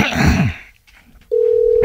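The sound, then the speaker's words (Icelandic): A steady telephone tone sounds while calling a sports centre in Blönduós: one unbroken mid-pitched hum that starts after a short pause and holds unchanged to the end. “Þú ætlar að hringja í Íþróttamiðstöðin Blöndósi”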